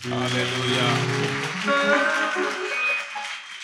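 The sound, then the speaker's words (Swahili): Congregation applauding the Lord during a church service, a steady wash of clapping that carries on throughout, mixed with voices and sustained musical tones. “mpe bwana makofi”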